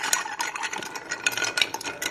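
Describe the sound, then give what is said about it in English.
Stirring a mezcal Negroni built in equal parts: quick, light clinks and scrapes repeating in an uneven rhythm, fairly faint and with no talk over it. “And then, you know, you just stir it up.”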